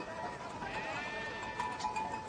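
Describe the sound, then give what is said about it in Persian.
A flock of about fifty fat sheep bleats, with faint, wavering calls overlapping one another in a continuous chorus. “چوپان خیبریان است. با 50 گوسفند فربه.”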